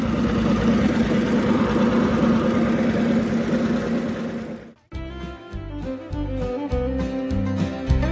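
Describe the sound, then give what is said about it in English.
A 1961 McCormick Farmall tractor engine runs with a steady, dense, loud drone for about five seconds before it breaks off. “This is the sound of a Farmall, McCormick Farmall tractor. 1961 Farmall.”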